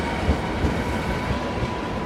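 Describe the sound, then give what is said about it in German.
A white-grey PKP Intercity passenger train with blue stripes pulls into a station, a steady rolling rumble with faint wheel clatter throughout and no voices. “Dann fährt der weiß-graue Zug mit blauen Streifen des polnischen Bahnunternehmens PKP Intercity ein.”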